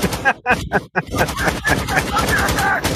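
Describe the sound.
Rapid automatic gunfire in a video game, a fast, dense stream of sharp cracks that takes over after a voice talks briefly at the start.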